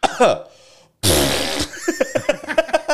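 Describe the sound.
A voice imitates a fart with a loud, rough, sputtering blast lasting about half a second. Other vocal sounds and voices come just before and after it.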